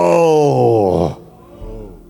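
A long, loud moaning groan is voiced on cue by people at a church service during a sermon. The pitch sways, then falls before it breaks off into quieter low sound.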